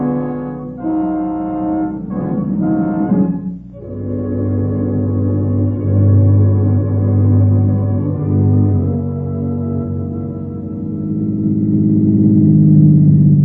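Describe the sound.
A car being driven along a road toward a police barracks gives a steady, low engine drone that holds throughout, with a slight swell near the end.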